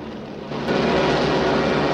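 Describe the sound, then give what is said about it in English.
A fighter plane hit in the tail by machine-gun fire and spiraling down out of control, heard as a broad rushing engine roar that swells louder after the first half-second and holds. “As Woody dives down to avoid the machine gun fire, a few bullets catch his tail, and he starts to spiral downwards, out of control.”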